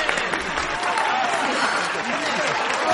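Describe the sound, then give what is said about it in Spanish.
Enthusiastic crowd applause at a typing contest final, a dense, steady wash of clapping that holds at an even level throughout, with voices mixed faintly into the noise. “se gira hacia su prometido que aplaude con efusividad”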